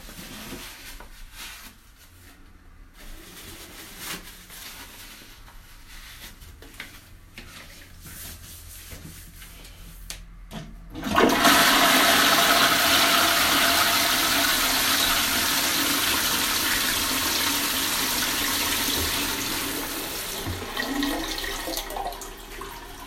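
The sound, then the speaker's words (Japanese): A toilet flushing after a morning bowel movement: a loud rush of water bursts in abruptly about halfway through and runs steadily, thinning toward the end, after a stretch of faint background noise. “無事に朝のうんち出てくれたので流します。”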